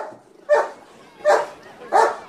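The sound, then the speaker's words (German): A rescue dog barks three times in a slow, even rhythm, each bark short, sharp and fairly loud, with quieter gaps between. “diesen gefitzten Vierbeiner habe ich sogar gekannt. Ein richtiger Rettungshund?”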